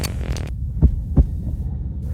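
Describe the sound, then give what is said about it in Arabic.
Heartbeat of a nurse after being shouted at and threatened, a few deep, muffled thumps over a low throbbing hum, each beat a soft double pulse. “هذا صوت معدل ضربات قلب ممرضة بعد أن تم الصراخ عليها وتهديدها”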